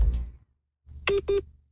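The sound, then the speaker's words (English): Two short, identical telephone beeps sound in quick succession after a brief muffled noise, as a phone call is put on hold. “Okay, so Ruby has put me on hold, which is quite embarrassing, so we will move on.”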